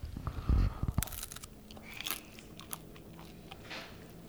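Someone bites into a homemade lye-dipped soft pretzel with a crisp, thin skin, giving one crunchy bite near the start. A few faint, soft chewing and crackling sounds follow in an otherwise quiet setting.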